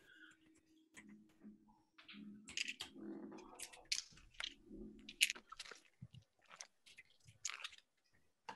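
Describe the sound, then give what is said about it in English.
Computer keyboard typing: irregular, quiet clicks and taps scattered across the stretch, with no voices over them. “I'm trying to think of what to actually type in.”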